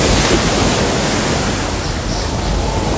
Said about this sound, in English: He held on with all his might as a giant wave carried him and his bed right out the window and off onto the high seas.